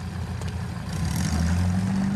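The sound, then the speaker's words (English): Engine of a Willys Jeep driving up to an airbase: a steady low motor rumble that grows louder midway and holds a firmer, deeper drone toward the end. “Alice drives up to the airbase in a Willis Jeep.”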